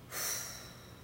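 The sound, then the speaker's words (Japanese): A person breathes out all the air from their lungs in one long, soft, airy exhalation that starts abruptly, then thins and fades away. “今体の中に残っている空気を一度全部吐き出します”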